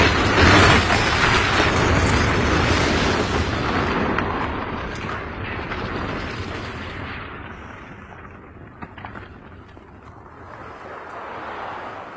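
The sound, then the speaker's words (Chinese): A bomb blast from the terrorist attack on MI6 in the film Skyfall, which brings down half the building. A loud, broad roar rumbles and slowly fades over several seconds, broken by a small sharp crack near the end. “里边不是有恐怖分子袭击军情六处，咵一个炸弹把半拉楼都给炸塌了。”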